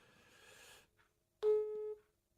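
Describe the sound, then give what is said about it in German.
Ringing tone of a phone call to someone who does not answer: one short, steady electronic tone follows a faint wash of noise, then silence. “seid jetzt live dabei, wie ich Benjamin einfach nochmal anrufe”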